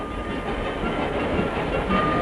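A train runs along its rails with a steady, dense rumbling roar. The noise holds at an even loudness throughout, with no distinct clacks or whistle standing out.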